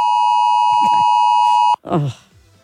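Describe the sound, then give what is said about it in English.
An electronic alarm holds a steady, high tone for nearly two seconds before cutting off abruptly, with faint voices under it and a short burst of talk afterward. “Oh, that was that 2 o'clock alarm thing.”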